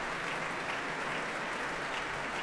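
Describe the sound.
A concert audience applauds warmly after an orchestral performance, a dense, even wash of many hands clapping that holds steady and continuous throughout without a break.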